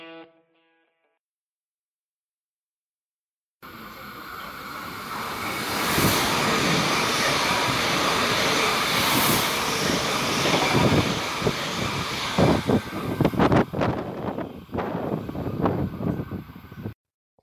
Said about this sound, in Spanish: En un tren blanco, casi vacío, el brillo del sol que entra por la ventana me encandila.